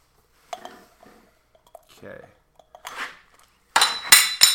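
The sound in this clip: A lid being handled clinks during a garage session, with soft scraping and tapping noises followed by a few loud, bright clinks near the end.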